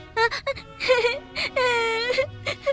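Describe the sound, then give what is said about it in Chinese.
Wendy, a frightened girl, crying in fright: several short whimpering sobs and two long, wavering wails that rise and fall in pitch, loud and alone. “温蒂从不远的地方探出头来，看到这一幕，她吓哭了。”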